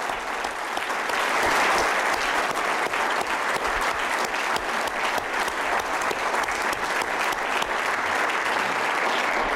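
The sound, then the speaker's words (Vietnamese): Audience applause at a conference: even, dense clapping that swells slightly near the start and then holds steady to the end, with no speech over it. “So just in case you don't want to applaud me, you've done it.”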